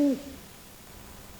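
One short, low owl hoot opens the moment and quickly fades, leaving faint hiss for the rest.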